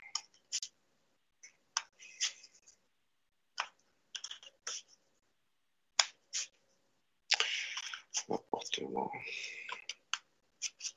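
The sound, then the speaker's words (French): Fortune-telling cards handled during a cartomancy reading: many sharp, separate card snaps and clicks spaced out over the first part, then a dense run of rapid riffling as the cards are shuffled near the end. “Maintenant, je vais faire un tirage de carte dessus. Comme ça, on va voir qu'est-ce qui exactement.”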